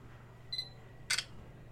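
A camera shutter fires once as a photo of snacks is taken: a short high beep comes first, then one crisp, loud mechanical click over faint background hum.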